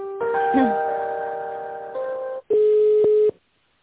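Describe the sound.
Connecting tones on a telephone line as a call is transferred to another office: a sustained, layered electronic chime changes partway through, then a short gap and a steady single tone.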